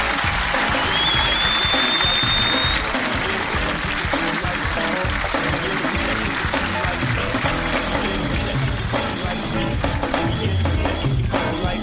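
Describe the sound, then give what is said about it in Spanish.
Audience applause on a Spanish-language show, heard as a loud, dense, continuous rush of clapping that stays even in level for the whole stretch. “El público te da este aplauso y toda la fuerza para que te vayas a España.”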